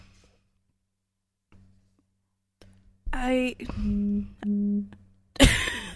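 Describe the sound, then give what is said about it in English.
A mobile phone sounds an electronic alert: a short warbling burst, then two steady held tones with a brief gap between, and a louder burst at the end. “Oh, I think that was my phone.”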